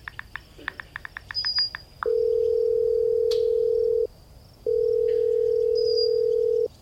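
Telephone tones: a quick run of short dialing beeps, then two long, steady electronic tones of about two seconds each, separated by a brief pause. Faint bird chirps sit in the background.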